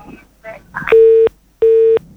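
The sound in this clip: Telephone busy tone after a caller hangs up: two steady, even-pitched beeps of equal length separated by a short gap, following a few brief faint murmurs.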